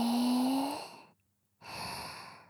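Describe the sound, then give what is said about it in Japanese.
During a guided breathing exercise, a deep inhale is heard as soft, airy breath noise, followed by a brief silence and another breath. “もっと深く限界まで吸ってください。”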